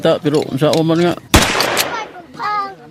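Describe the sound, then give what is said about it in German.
A single loud, sharp gunshot: a test shot fired into a sand-filled barrel. It cuts in after talk, has a brief decaying tail, and talk resumes. “einen Testschuss in die sandgefüllte Tonne abfeuert”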